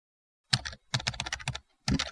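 Rapid keystrokes on a computer keyboard as card details are typed in, arriving in three quick bursts separated by short pauses, with no voices.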